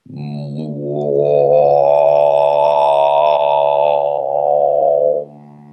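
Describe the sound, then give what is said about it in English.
A man's voice imitating a deep om sound, holding one steady, low, resonant hum for about five seconds before stopping abruptly. “And I remember hearing the om sound when I was six, just spontaneously lying on the bed. It went, I kind of,”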